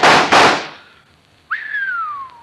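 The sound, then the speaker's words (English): Two sharp gunshots crack in quick succession as a shooter smashes small marble-sized pieces of adobe clay tossed into the air, then after a short pause a high whistling tone sounds and slowly falls in pitch. “Smashed it. 3 of them before they hit the ground. By thunder, that's what I call shooting.”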